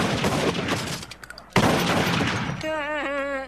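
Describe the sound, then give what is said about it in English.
A sawed-off shotgun blast sound effect: a sudden loud boom cuts through a noisy, crackling clatter and decays, and a wavering, warbling tone follows. “You ever hear of a sawed-off shotgun?”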